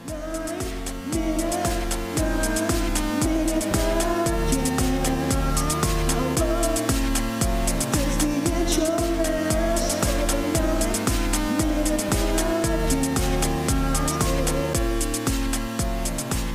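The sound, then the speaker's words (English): Theme music for a short talk-show intro plays loud and continuous throughout, a full instrumental track driven by a steady, quick low beat with dense layered tones and no voices. “if you want to know what the 9-Minute Podcast intro theme sounds like, it sounds like this.”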